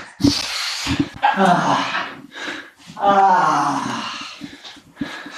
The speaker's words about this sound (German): Ich bin sehr gut im Stöhnen,